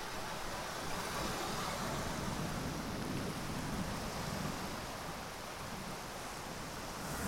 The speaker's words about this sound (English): It's about 6 o'clock and the tide's coming in.